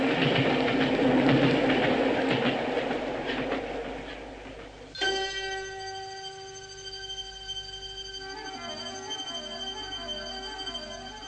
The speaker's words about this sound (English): at Canterbury, we saw the single carriage of the special go thundering past us.